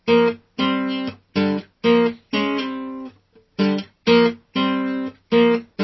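Guitar plays a well-known rock riff with the notes of each chord inverted to match the original recording: a series of punchy, loud chord stabs that decay quickly, with one brief pause partway through.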